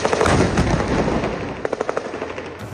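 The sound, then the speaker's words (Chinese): Gunfire during the Israeli offensive in Gaza: a loud, rumbling burst of firing gives way to a quick string of sharp, evenly spaced shots. “阵阵轰炸再接一连串枪响，以军攻势不停歇。”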